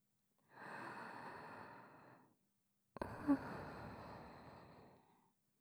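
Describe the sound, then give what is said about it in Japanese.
Two long, deep breaths taken during a medical examination, each a soft, airy rush of breath lasting well over a second, separated by a short silent pause. “肩の力を抜いて。はい、深呼吸。”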